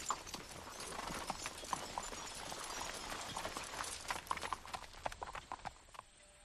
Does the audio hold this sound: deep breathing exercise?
no